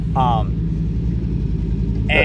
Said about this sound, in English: We got a truck rolling by us, so sorry for that noise.